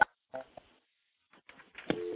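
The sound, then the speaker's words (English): Dialling 9 for an outside line on an electromechanical telephone switch: a few sharp clicks and bursts separated by silence, then a steady low tone that starts near the end. “Now we're going to go into a real electromechanical switch. Now we're going to dial 9 to get an outside line on the switch.”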